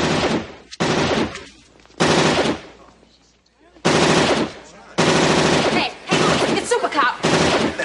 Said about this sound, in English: all of a sudden they hear that gun, that friggin' RoboCop gun that...